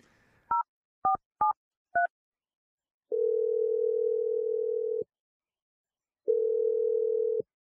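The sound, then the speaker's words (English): Touch-tone dialing on a telephone: four short, clean beeps of differing pitch, followed by two long, steady tones with a silent gap between them. “Yeah, I'm dialing his number right now.”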